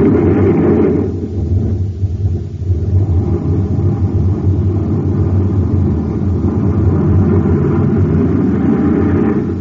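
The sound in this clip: Rocket engines firing at blast-off: a loud, steady, low roar with a rough, rumbling texture holds for the whole clip, easing slightly for a moment early on.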